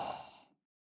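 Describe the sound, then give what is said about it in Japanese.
One slow exhale through the nose makes a soft, breathy hiss that lasts about half a second, then fades into silence. “吸って、鼻からゆっくりと吐いて、”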